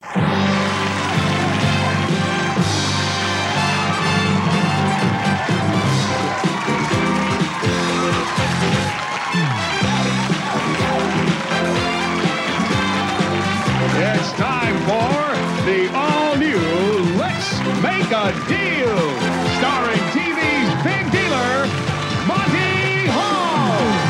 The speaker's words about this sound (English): Let's listen to the opening theme music to the 1984 to 86 version of Let's Make a Deal, entitled The All-New Let's Make a Deal.